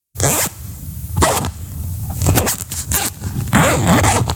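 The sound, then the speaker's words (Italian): A zipper being pulled several times in quick rasping strokes, separated by short pauses. The final pull is the longest and loudest. No other sounds are heard. “Sono una cerniera.”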